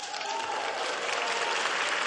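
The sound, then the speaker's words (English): Young people in an audience with Pope Francis break into applause, a short, full, even burst of many hands clapping together at a steady level. “He asked, receiving an applause.”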